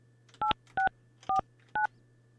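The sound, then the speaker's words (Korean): Four touch-tone telephone dialing beeps, each short and steady, sound at a fairly even pace over a constant low electrical hum. “이분 한번 전화 연결 한번 해볼게요.”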